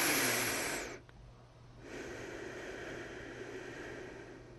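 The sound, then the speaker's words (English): A slow, deep breath taken to relax: a loud rush of air for about a second, a short pause, then a longer, softer, steady stream of breath, with no talk. “Let's take a nice deep breath to relax.”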